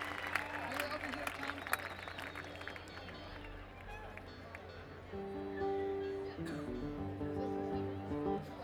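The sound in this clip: Faint audience applause welcomes bluegrass guests, with scattered clapping for the first few seconds. It then gives way to sustained instrument tones and talking voices.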